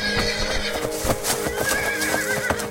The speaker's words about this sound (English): The plains around the hills are well known as grazing grounds for the Pegasi. They're common across much of Atlantis. Come on. Flying horses.